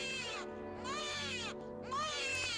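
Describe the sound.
A newborn baby cries in a room at night, three long, high, drawn-out wails that arch up and down in pitch, with short gaps between them.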